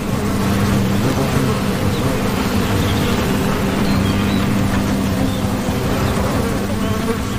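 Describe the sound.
Wasps buzz around their paper nest inside a dead tree hollow, a dense, continuous hum of many insects that stays loud and steady throughout, with no voices.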